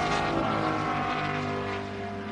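Race cars passing the start-finish line during a race, a continuous loud engine roar that holds steady throughout, with a mix of buzzing tones and only a slight drop in level near the end.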